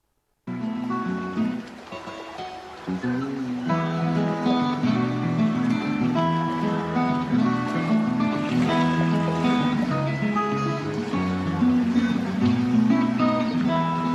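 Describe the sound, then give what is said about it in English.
Ride audio from a theme park boat attraction in the Land Pavilion at Epcot, Walt Disney World: continuous melodic music over a steady wash of water-like noise, loud and even after a brief silent start. “It's Living with the Land over in the Land Pavilion of Epcot.”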